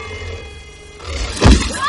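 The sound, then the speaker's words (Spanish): A heavy thump rings out as a magical willow tree's branch strikes two people in a fantasy film scene, landing sharply over a dense bed of background noise and music. “Una rama del árbol golpeó a Hermione y a Harry y los lanzó a varios metros”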